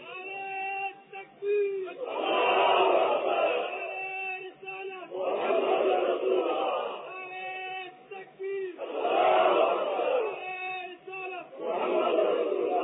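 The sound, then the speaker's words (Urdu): A crowd chants religious slogans in loud, repeated swells of massed voices. Each chant rises and falls, with short quieter gaps between the phrases. “بس یہی چند مٹھی بھر آدمی نعرہ لگانا ہے، نعرہ لگاتے ہیں وہ لوگ،”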